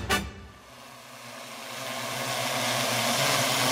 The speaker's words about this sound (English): That buzzing sound you can hear could well be the future of farming. This drone is about the size of a shoebox and has six spinning propellers keeping it steady, like a mini helicopter.